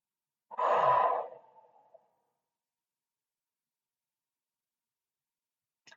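A single deliberate deep breath taken during a guided mindfulness exercise, released as a full, sighing exhale that swells and then tails off over about a second and a half, followed by silence and a faint click at the end.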